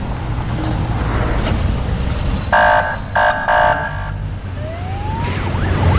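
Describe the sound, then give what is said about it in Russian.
Two armored vehicles drive up to a hospital, giving a loud, steady low engine rumble with a brief harsh tonal burst partway through. “К больнице подъезжают два бронеавтомобиля.”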